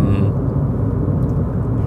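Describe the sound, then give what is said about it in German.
Riding in a car produces a steady, loud low rumble of road and engine noise that continues evenly throughout. “fahr noch ein, zwei Sekunden mit mir Auto und dann hören wir uns gleich wieder.”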